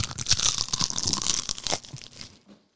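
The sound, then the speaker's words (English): A crunchy bite of food taken right at a microphone gives dense, crackling crunches for about two seconds, then a few fainter ones before fading to silence. “I'm gonna take one more bite in the microphone and see what it sounds like.”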